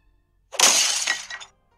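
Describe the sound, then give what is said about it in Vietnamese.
A thrown teapot shatters in one sharp, loud crash that breaks into a bright burst of smashing fragments. The sound lasts about a second and stops abruptly, with silence before and after. “Ấm trà bị Lâm Tam ném vỡ tan.”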